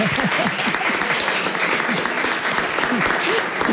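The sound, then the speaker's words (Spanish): Sustained applause from a studio audience at a family television show, dense and steady from start to finish, with a few voices mixed into the clapping. “Pero sí ese aplauso y el agradecimiento.”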